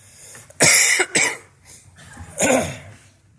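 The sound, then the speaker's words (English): A member of a church audience coughs during a sermon: three sharp, harsh coughs, the first two close together and the third after a short pause, with quiet murmuring in between. “And then when someone starts coughing, it's like, yeah, I need to cough too. So just get it out.”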